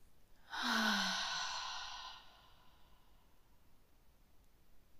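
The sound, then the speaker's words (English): A single long, breathy sigh comes from a deep relaxation breath, drawn in through the nose and released through the mouth. It swells quickly, then trails off softly into faint background hiss. “Allow a deep breath in through your nose and exhale through your mouth.”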